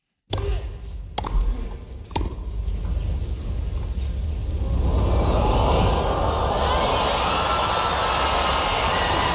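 Tennis ball strikes from a Wimbledon rally land as a few sharp pops over steady background noise, and the noise swells louder and fuller through the second half.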